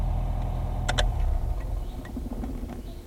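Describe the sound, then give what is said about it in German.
A car engine rumbles low and steady as the car slows, signals and pulls into a parking lot beside an inn along a country road. Two sharp clicks sound over the engine. “Arbogast nahm den Fuß vom Gas, blinkte und lenkte den Wagen auf den Parkplatz neben einem Gasthaus.”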